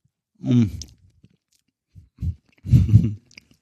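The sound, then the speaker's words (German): Chewing as someone eats a piece of cake, in a few moist, crunchy bursts separated by quiet gaps. The final burst is the longest and loudest. “So, und jetzt esse ich einfach mal ein Stück von diesem Kuchen, ohne das Mikro voll zu sauen.”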